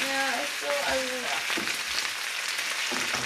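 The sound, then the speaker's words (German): Potatoes frying in a pan give a dense, steady sizzling hiss that carries unbroken through the whole clip, with a few brief louder crackles rising out of it. “wir braten jetzt noch die Kartoffeln und dann sind die eigentlich relativ fertig.”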